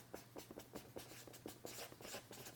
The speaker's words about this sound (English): I'll write on the sort of right-hand column of the paper